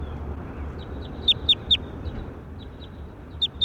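Bird call: short, high, downward-swept chirps in small clusters, three louder ones close together and then a pair later, with fainter chirps between, over a low, constant background rumble.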